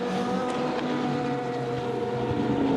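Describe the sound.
A race car passes on a circuit during a race, its engine a loud, dense, sustained roar that fills the whole clip with no talk over it.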